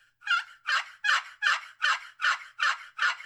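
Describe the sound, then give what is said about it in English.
Turkey yelps made on a box call worked on its right side: eight evenly spaced, raspy, fairly high notes in a steady rhythm, each rising and breaking, after a faint note at the start. “I want you to run the right side of that box call.”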